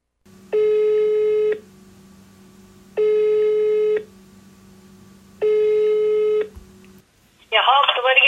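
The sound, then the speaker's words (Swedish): An outgoing telephone call rings: three steady one-second ring tones separated by pauses of about a second and a half. A voice then answers over the phone line. “men vi ringer henne.”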